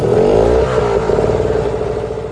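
A cooler-sized, roughly 120-pound portable pull-cord generator engine runs with a loud, steady mid-pitched rumble and mechanical clatter, its tone holding fairly even throughout.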